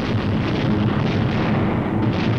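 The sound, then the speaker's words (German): A heavy, continuous rumbling roar from explosions and fires during a bombing raid on a city, a steady, dense din with no distinct separate blasts. “Explosions and fires are sucking the oxygen from the air.”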